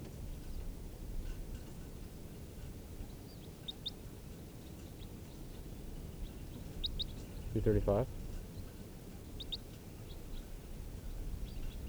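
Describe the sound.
A bird gives faint, high, brief chirps a few times over a steady background hiss, with quiet pauses between the calls.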